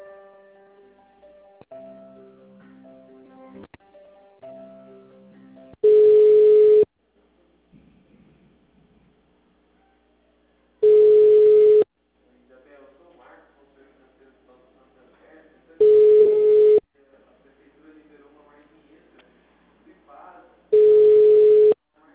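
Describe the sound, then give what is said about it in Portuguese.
Telephone line tones during a call transfer on a bank's credit hotline: four loud, steady single-pitch beeps, each about a second long and evenly spaced, with quieter tonal sounds in the gaps between them. “Aguarde, estou transferindo sua ligação para o assistente.”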